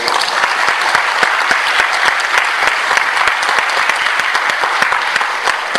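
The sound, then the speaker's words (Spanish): An audience applauds to welcome guests at a comics event, a continuous, loud wash of many hands clapping that holds steady throughout without a break. “Recibamos con otro aplauso a nuestros invitados.”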